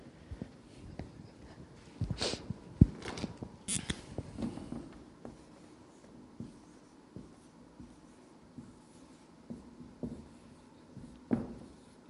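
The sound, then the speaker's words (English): Handwriting scratches across paper as someone writes something down by hand, in faint, irregular bursts of short strokes with pauses between, with no other sound. “And basically, that, I guess I'll just write this down.”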